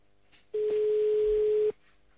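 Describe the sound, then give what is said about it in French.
A phone line gives a single steady ringing tone while a call is placed to a car dealership. The mid-pitched beep lasts just over a second, with near quiet before and after it. “On appelle maintenant chez Audi pour tenter de gérer une voiture.”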